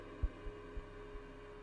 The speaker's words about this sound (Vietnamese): Cô Lan bấy giờ tim đập bành bạch, như muốn tắt thở mà chết.